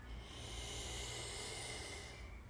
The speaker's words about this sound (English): Take a deep breath in